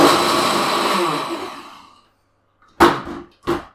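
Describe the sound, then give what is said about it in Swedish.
A blender whirs loudly with a harsh, dense motor roar that winds down and stops, followed after a short silence by two sharp thumps. “Nu mixar jag.”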